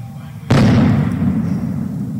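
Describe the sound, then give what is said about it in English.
A single loud blast, such as a police stun grenade or flashbang, goes off at night during a police standoff at a townhouse. It hits with a sudden sharp crack after a quiet hum, then a long rumbling tail that lingers to the end. “Later as night fell, a loud blast interrupted the negotiator, possibly a police stun grenade or flashbang.”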